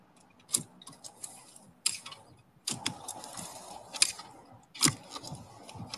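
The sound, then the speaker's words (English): A spade digs a fence post hole, with many crunching strikes into soil at an irregular pace and a few sharper scrapes standing out over faint gritty rustle. “I'll dig this hole and then we'll show you what the next process is.”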